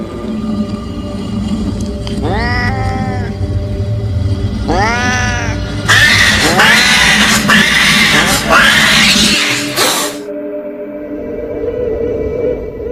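A cat meows, then yowls: two drawn-out, bending meows are followed by a longer, harsh screeching yowl over a steady low hum.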